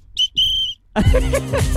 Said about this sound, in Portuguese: Eu toquei o apito aqui. Eu vou tocar de novo